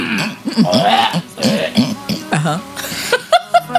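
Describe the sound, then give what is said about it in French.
Throat clearing by a person, a few rough, raspy vocal bursts mixed with short voiced sounds, fairly loud and uneven in rhythm. “En fait, je vais me gratter la gorge.”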